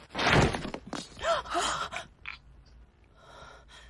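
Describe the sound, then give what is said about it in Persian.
A laptop falls to the floor with one loud clattering thud at the start, followed by fainter rustling, breathy sounds and scattered small knocks. “فکر کنم لپتاپش افتاد رو زمین.”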